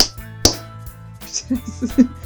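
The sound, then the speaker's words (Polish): A single sharp hand clap lands on a count of three, followed by brief voices. “No to klaskamy raz, 2, 3 klask, dobra?”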